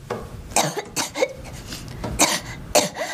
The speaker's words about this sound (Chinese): 你都咳嗽成这样了，你还说你没生病？